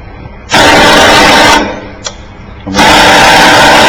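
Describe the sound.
An electromechanical rotor cipher machine whirs as it is reset with its rotors at the TT position. Two loud, sustained mechanical whirring bursts are split by a quieter hum and a single brief click.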